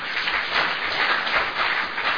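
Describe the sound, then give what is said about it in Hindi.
An audience claps after being asked to applaud during a spiritual talk. The clapping is a dense, steady wash of many hands that holds at an even level for the whole stretch, with no voices standing out. “ऐसा ताली तो बजाओ ना”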